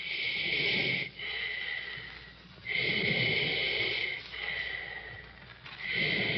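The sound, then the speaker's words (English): Slow, uneven breathing of a wounded soldier on a surgical table: long, raspy, hissing breaths drawn in irregular cycles, with short pauses and quieter stretches between them. “Listening for that slow, uneven breath to either stop or quicken and become regular.”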